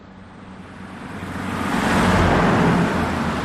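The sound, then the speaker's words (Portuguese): A van slowing down on a deserted street at night gives a broad rushing road rumble that builds past the midpoint, peaks, and stays loud to the close. “Em uma rua deserta, uma van desacelera e duas pessoas são empurradas para fora do veículo.”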